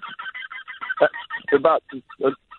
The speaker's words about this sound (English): I'm looking at about 200 geese right now.